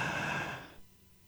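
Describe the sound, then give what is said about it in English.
A single breathy exhale during a guided deep-breathing exercise, starting fairly full and then fading away to near quiet. “One more time. Breathe in.”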